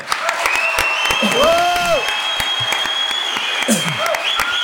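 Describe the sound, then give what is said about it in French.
Loud, sustained applause from a conference audience at a real estate industry event, welcoming Stéphane Plaza, founder of the agency network bearing his name, with a voice rising briefly over the steady clapping. “Merci de faire un triomphe à Stéphane Plaza.”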